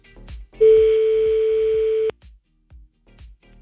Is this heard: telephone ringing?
yes